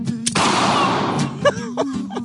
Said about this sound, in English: Yeah, again, in the background, shooting a gun into the sky.